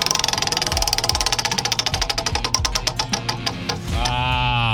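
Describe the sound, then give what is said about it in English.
Prize wheel spinning in a radio game segment: a fast run of ratcheting clicks that gradually slow and spread out, then a ringing tone, with low musical tones underneath. “Are you ready to spin the wheel? Let's spin it.”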